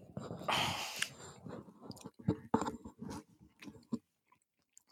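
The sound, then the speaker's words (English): Close-up chewing and crunching of fast food for ASMR, with wet, crackly bites and smacking that come in irregular bursts. Breaths are heard between them, and the sounds stop into near silence at the end. “This is Raising Cane's ASMR.”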